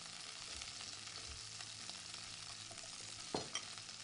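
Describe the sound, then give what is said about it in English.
Sausages and rough-chopped onions frying together in a pan for sausage and peppers, a soft, steady hiss and sizzle throughout. A couple of brief stirring clunks come near the end, with no talking. “While the sausages are cooking, some onions, just rough chopped onions. Maybe I'll rough them up a little bit more here. Not a big deal. We're going to put them in there.”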